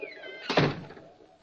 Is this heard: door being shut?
yes

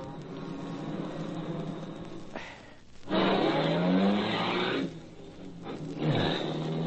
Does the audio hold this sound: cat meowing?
no

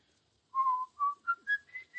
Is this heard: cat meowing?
no

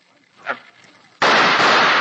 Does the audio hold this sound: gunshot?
yes

